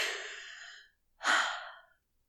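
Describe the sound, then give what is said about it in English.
A deep breath: one long airy whoosh, then after a brief silence a second, stronger rush of breath that fades out, alone with no talking. “So I'll take a deep breath and go there.”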